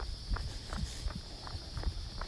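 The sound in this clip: Footsteps of a person running, a steady series of evenly spaced, soft thuds under a faint constant high hiss, with no talk.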